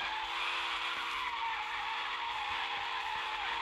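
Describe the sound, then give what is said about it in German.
A car drifts in a video game: a continuous tyre screech over a steady engine drone, holding at a constant level without breaks. “Driften über 1000 Meter.”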